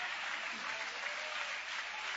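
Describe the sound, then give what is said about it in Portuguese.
A church audience applauding during a service: a dense, even wash of many hands clapping, fairly faint and steady, with no single claps standing out. “Isso, e pode aplaudir o nome de Jesus com alegria.”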